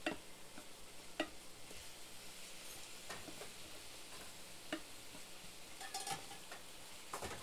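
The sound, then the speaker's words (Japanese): Food sizzles steadily in a frying pan as it is flipped, with a few sharp clicks and taps from the pan and utensil standing out over the constant crackle. “フライパンひっくり返してるだけよ。”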